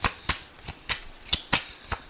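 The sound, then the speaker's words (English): Playing cards being shuffled and drawn, a crisp series of many sharp snapping flicks in a fairly steady rhythm, roughly four per second, with no voices. “I want to take some more cards.”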